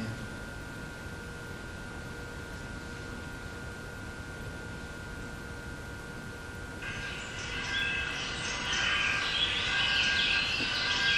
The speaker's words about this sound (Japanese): 鳥の声ですよね。それから教会のベル、